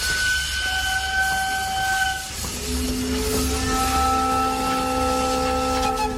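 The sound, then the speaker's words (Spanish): Inside a moving train carriage at night, a steady rumbling roll carries several sustained whining tones that shift and overlap, with no talk. “Vagón de tren. 21 horas.”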